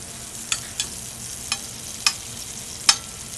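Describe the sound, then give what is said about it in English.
Sliced garlic fries in a hot pan with olive oil, a faint, low sizzle punctuated by five crisp little pops spread unevenly across the moment, with no talking. “Okay, I'm going to start off with the sliced garlic into the pan.”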